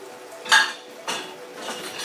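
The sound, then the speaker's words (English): A teaspoon dropped among dishes, giving a few bright metallic clinks and rattles of cutlery against crockery, fairly faint with quiet gaps between. “Dropped a teaspoon down in that.”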